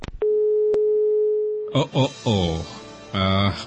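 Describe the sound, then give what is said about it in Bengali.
A steady, unbroken tone sounds from a phone line after a call cuts off, following a couple of brief clicks. It holds at one level pitch for about a second and a half, then people talk over the silence that follows. “আসলে আমি ঢুকবো ঠিক এই মুহূর্তে এই ফোনটা কেটে গেল”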